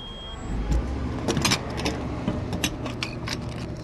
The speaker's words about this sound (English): Still reliant on the power of fossil fuel, I climb into my Toyota Matrix and pump $33 of gas into the tank.